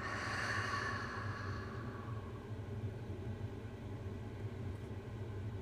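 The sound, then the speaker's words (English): A deep exhale through an open mouth, a soft, airy rush of breath that fades over about two seconds into quiet, low background noise. “Open the mouth, exhale, and letting it all go.”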